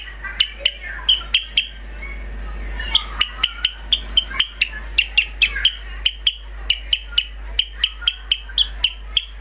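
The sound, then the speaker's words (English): Sparrow song: many short, sharp, high chirps repeated in a quick, fairly steady rhythm, with a low steady hum underneath throughout. “The sparrow song sounds like this.”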